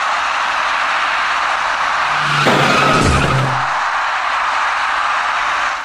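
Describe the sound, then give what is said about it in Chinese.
A dark taxi drives through a city intersection while making a right turn. A steady broad roar of traffic runs throughout, with a brief tire skid or squeal in the middle. “一辆深色出租车沿着温阳路方向自北向南而来”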